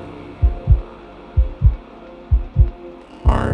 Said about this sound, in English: I can feel heartbeats.